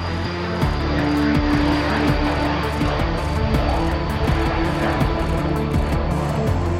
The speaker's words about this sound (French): Sur la base aérienne de Solenzara, en Corse, un chasseur s'apprête à décoller. Ce n'est pas un avion militaire, mais scientifique.